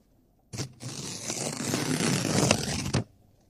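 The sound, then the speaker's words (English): A paper envelope holding a check is ripped open: a short tear, then one long, continuous rustling rip lasting a few seconds, steady and gritty, ending abruptly. “I always have a fun time opening the check live on air. I could rip this part, right?”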